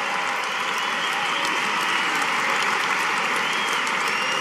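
Loud, dense applause from an arena crowd at the Carrier Dome welcoming guests, a continuous wash of clapping that holds steady without pause.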